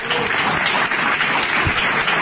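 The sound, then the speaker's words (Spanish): Crowd applause at a live show: thick, uniform clapping from many people, loud and unbroken from start to finish with no talk on top. “Qué bien, qué lindo los aplausos, ¿eh?”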